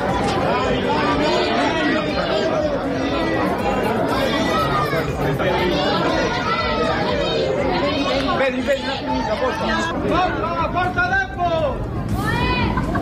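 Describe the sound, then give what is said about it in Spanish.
Crowd atmosphere at A Coruña airport: a loud, continuous mass of many voices shouting, calling and chattering together, with no pause across the whole stretch. “Ambientazo en el aeropuerto de A Coruña, lo pueden comprobar en nuestras redes sociales, por ejemplo, en nuestro perfil de Instagram pueden ver todos esos vídeos que hemos también captado en ese momento con sonidos como este.”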